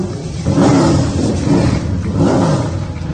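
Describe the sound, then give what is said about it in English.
Race car engines firing up and revving at a speedway before a race. A low, rumbling roar swells in a few waves and stays loud throughout. “You can hear those engines firing.”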